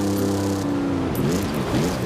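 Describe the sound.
Car engines roaring during a race in Forza Horizon 5. A loud, continuous droning hum starts out steady, then its pitch begins to waver and shift as the engines rev.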